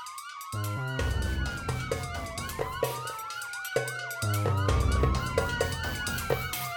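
Police car siren chasing a stolen roadster, loud wailing tones sweeping downward again and again over a steady rhythmic pulse.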